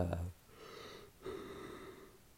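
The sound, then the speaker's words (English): A person yawns in a quiet, drawn-out, breathy voiced exhale that breaks briefly midway and then trails off, after a short louder sound at the very start. “Not gonna edit that yawn out.”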